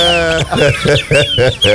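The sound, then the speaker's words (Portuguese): Little birds chirp on a farm in the morning, a loud run of rapid, repeated bright chirps with clucking, fowl-like tones in quick bursts. “Os passarinzinhos aí. Já tá todo mundo acordando.”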